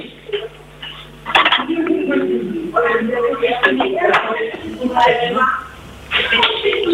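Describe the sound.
A plate is set down while food is prepared: sharp ceramic clinks and scraping of dishes and cutlery, a few distinct knocks, under ongoing talk.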